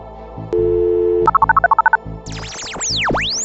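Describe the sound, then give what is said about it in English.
A telephone number is dialed: a steady dial tone, then a quick run of about nine touch-tone beeps, followed by sweeping electronic tones that rise and fall. “So, is it time to dial the numbers?”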